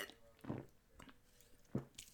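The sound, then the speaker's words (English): Gulping swigs of Coors Light beer: a few short, soft, wet swallowing sounds in separate bursts, fairly faint with quiet gaps between them. “The unofficial, soon to be official sponsor of Backseat Quarterbacks is Coors Light, the silver bullets. Drink it up. Let me take a swig real quick and we'll get right back to the show.”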